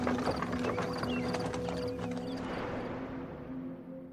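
Horse hooves clopping as the animal pulls a cart, a steady run of many hoofbeats at walking pace, fairly quiet and fading slightly toward the end.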